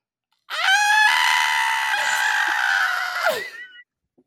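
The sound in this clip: A person lets out one loud, sustained, high-pitched scream lasting about three seconds, which trails off as its pitch drops at the end.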